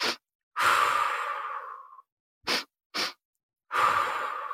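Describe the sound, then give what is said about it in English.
Breathing exercise with two short inhales through the nose and one long exhale through the mouth: long, slowly fading breathy exhales alternate with a pair of quick, sharp sniffs, with no talking. “I did this breath practice of just breathing in 2 strokes through my nose and 1 out through my mouth.”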